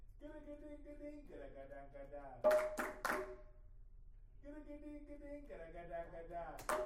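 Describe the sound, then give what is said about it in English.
A few sharp hand claps come in a quick group during a rhythm exercise in a drum lesson, set between stretches of sustained tonal sound. “Okay, so now we're going to do clap for number one and number two.”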